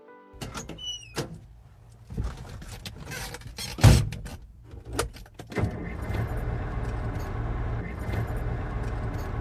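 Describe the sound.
A car setting off on the road after a meal stop: first key jangles, clicks and door thumps, then a steady engine and road rumble that carries on to the end.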